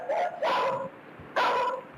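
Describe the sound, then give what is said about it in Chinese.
A guard dog barks furiously in a residential courtyard at night, giving two loud, harsh bursts of rough barking separated by a brief pause, with no talk over it. “看家狗突然从窝里冲了出来，跑到院子中央，冲着画面外的一个方向狂吠不止。”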